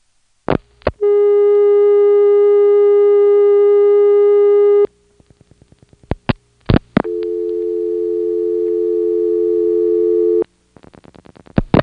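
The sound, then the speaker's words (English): A telephone call to the reorder in Goldston: dialing clicks, then a long steady electronic tone, more pulses, a second sustained tone that grows louder, and finally a rapid string of short repeated beeps. “Here's a call to the reorder in Goldston.”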